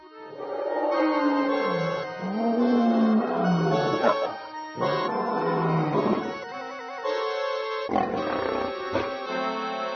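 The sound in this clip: Lion roaring in deep, growling, drawn-out bursts. A few long, loud roars follow one another almost without pause for the whole clip.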